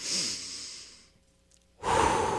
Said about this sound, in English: First off, let's just breathe real deep.